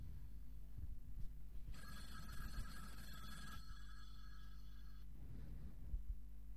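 A telephone ringing: one steady electronic ring of bright stacked tones lasting about two seconds, trailing into a fainter tone before stopping, all over a low constant hum.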